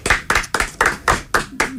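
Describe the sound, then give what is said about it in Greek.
Hand clapping by one person, with seven sharp, evenly spaced claps at a steady moderate pace. The claps are loud and heard alone. “Εγώ χειροκροτάω εδώ”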